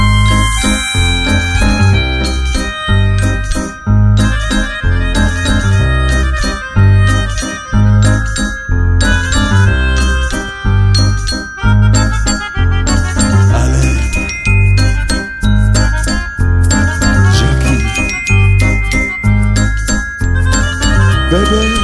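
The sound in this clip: Bells jingle in a steady, rhythmic pattern over a regular, low, pulsing beat, bright tinkling repeating loudly and evenly throughout.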